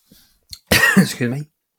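A man coughs: a couple of faint throat sounds, then a loud, harsh cough burst that breaks into a second rough hack.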